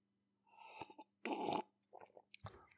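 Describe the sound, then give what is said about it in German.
Hot coffee being sipped: a few short slurping and swallowing sounds, one much louder and breathier than the others, with soft breaths between them and no talk. “Naja, dann trinke ich jetzt mal einen Schluck heißen Kaffee drauf.”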